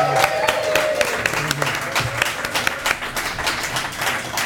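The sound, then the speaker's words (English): A live audience at Winter Clash 2019 applauds and cheers: dense, continuous clapping with some crowd shouts, holding loud and steady throughout. “Live from Winter Clash 2019. Everyone make some noise.”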